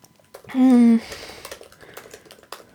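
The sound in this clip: Keyboard typing while someone writes during a chat, heard as a run of light, irregular clicks that continues for about two seconds, preceded by a brief, louder humming tone.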